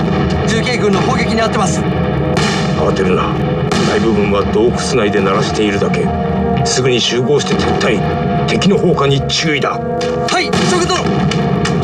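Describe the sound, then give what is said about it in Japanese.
Mountain artillery guns bombard enemy campfires in a loud, dense barrage of booming shots and thuds that runs throughout, with voices talking over the gunfire. “集中我们所有的山炮，对准这些篝火堆，给我猛轰这些王八羔子，轰他个损兵折将”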